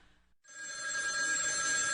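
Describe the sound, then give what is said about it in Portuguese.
A telephone rings in a steady, bright electronic tone that starts abruptly after a brief quiet moment and continues without a break to the end. “Atende aí! Deve ser aquela ricaça do rio. Pra tudo ela liga pra gente.”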